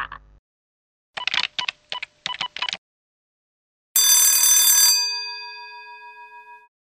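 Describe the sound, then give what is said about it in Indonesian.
A phone call to a travel agency: a quick series of beeping keypad tones dials the number, then one bright bell-like ringing tone sounds and slowly fades out. “telepon travel aja, travel Cipagita.”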